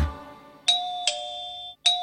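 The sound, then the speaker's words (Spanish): A doorbell rings with three clear, bright electronic chimes. Each tone rings on and sustains briefly before the next, with a short gap before the last. “¿Qué es? El timbre alguien tocó.”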